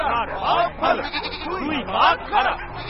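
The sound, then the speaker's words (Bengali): A flock of sheep on a farm bleats in a ragged chorus, several overlapping, wavering cries swelling and fading over a few seconds. “কিন্তু কেউ কিছু বলবার আগেই হঠাৎ ভেড়ার দল সুর করে জপতে শুরু করল।”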